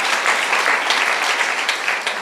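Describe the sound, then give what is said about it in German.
An audience applauds during a church service: dense, steady clapping that stays loud for about two seconds. “Und an der Stelle würde ich mal klatschen, wenn ich in den Reihen sitzen würde.”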